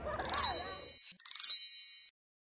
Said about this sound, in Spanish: Entonces sonó la campanada del reloj.